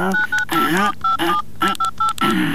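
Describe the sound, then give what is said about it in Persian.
Keypad tones sound as a telephone number is dialled: several short, clear electronic beeps at different pitches, mixed in with people talking throughout. “اینه زنگ میزنم، صبر کو.”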